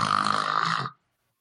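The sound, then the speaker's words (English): A person imitates a single loud snore with their voice. The rough, raspy burst lasts under a second and stops abruptly, leaving silence. “It's just one loud snore. And then it's just done.”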